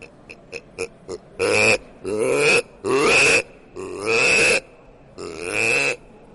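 Deep wild boar grunts made by a handmade hunting lure call: five short, quick grunts, then five longer, loud rasping grunts separated by brief pauses.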